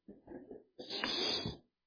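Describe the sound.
A man with pneumonia coughing: a harsh, wheezy burst that follows a shorter, rougher stretch of throat noise, both fairly faint.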